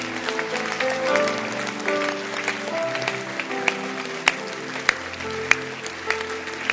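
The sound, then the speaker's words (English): A church audience gives a standing ovation during a sermon. Steady clapping from many hands continues throughout, with a few sharper single claps popping out over faint sustained tones. “Can you stand up and clap again? Stand up and clap. It's called a standing ovation. Standing ovation. Clap.”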